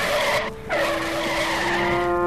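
A truck skids to a stop on a street with a loud, sustained tire screech. A steady high squeal runs through it, dips briefly after half a second, then carries on strong to the end.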